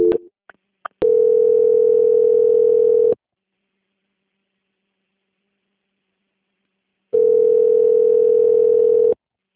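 Telephone line tone during a call transfer: a few short blips at the start, then two long steady tones of about two seconds each, separated by a long silent pause.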